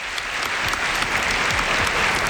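Sustained applause from a large audience at a ceremony as dignitaries take center stage, a dense, steady wash of clapping throughout with no voices.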